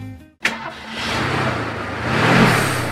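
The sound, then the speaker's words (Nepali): Car engine from a vehicle that keeps breaking down and burns a lot of fuel: a sharp burst as it turns over, then a steady, rough roar that swells louder near the end. “फेरि गाडी बिग्रियो, तनावै दियो यो गाडीले पनि।”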